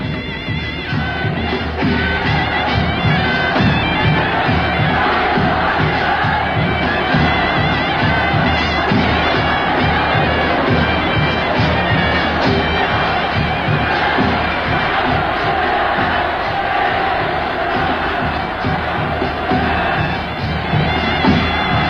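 A large crowd cheers and shouts a warm welcome in a Beijing opera and folk-art performance, a scene of Chinese volunteer soldiers and Korean troops and civilians greeting a visiting delegation from home. The roar is loud, dense and unbroken throughout.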